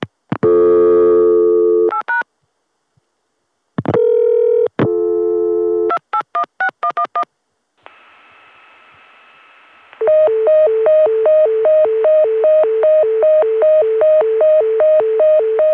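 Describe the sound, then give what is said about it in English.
Bell System Dimension PBX intercept tone, from a mid-1970s pulse amplitude modulation exchange, reached by dialing an unassigned extension. Loud touch-tone dialing and a steady tone come first, then a rapid, repeating two-pitch warble. “This is the familiar intercept tone used by the Bell System's Dimension PBX, a pulse amplitude modulation PBX that began appearing in the mid-1970s.”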